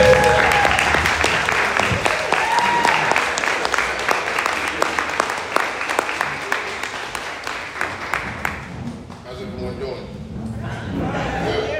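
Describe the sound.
Audience applause welcoming a speaker onto the stage at a real estate investing event: dense, steady clapping from a large crowd that thins out after about nine seconds, with a voice following near the end.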